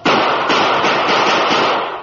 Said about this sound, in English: Grabbing one of his guns, he raised on his elbows and emptied it at the chief who had moved within range.